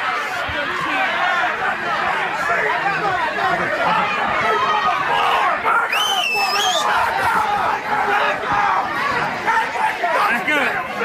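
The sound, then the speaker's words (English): A Black Friday shopping crowd fills the air with dense, continuous chatter and babble of many voices, loud and unbroken throughout. “Let me just give you a soundbite of Black Friday. Tell me if this sounds like fun.”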